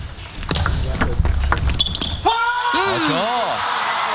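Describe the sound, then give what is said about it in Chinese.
A table tennis ball ticks sharply several times as a serve is pushed short and the rally is returned in a match. Loud crowd voices and cheering follow. “这个球摆短摆得非常好，剁住了孟松子的这个发球，还是而且也盯到了他的正手位短球”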